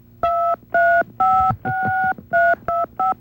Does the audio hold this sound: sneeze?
no